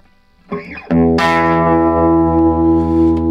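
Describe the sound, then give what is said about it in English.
An old tube Fender amplifier gives off a loud, steady, buzzing hum, with a Gibson 335 humbucker guitar plugged straight in. After a brief noisy burst, a rich harmonic drone settles in and holds constant. “Hear that? That is the sound of like 1957. A through line. A tapped in frequency, a tube hum from an old Fender.”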